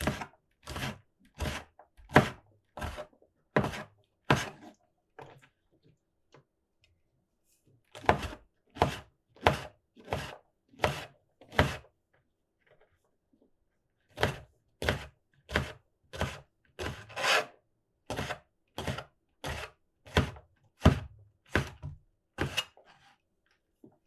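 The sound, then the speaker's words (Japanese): Knife finely chopping eryngii mushrooms on a board: three rapid runs of many crisp, evenly spaced strokes, separated by short pauses. “エリンギもみじん切りっぽくしていきます。”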